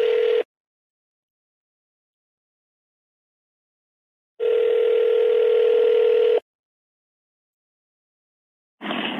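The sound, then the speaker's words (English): A phone call to a Georgia number rings out on loudspeaker as a steady, buzzing ringback tone. One long ring of about two seconds sits between clipped fragments at the start and end, with silence in between. “Oh, it's a Georgia phone number. Loudspeaker.”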